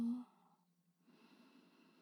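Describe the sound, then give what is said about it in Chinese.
A slow, deep inhale during a guided breathing exercise makes a soft, airy hiss that starts after a short pause and holds quietly to the end. “来，跟着我深呼吸，吸，”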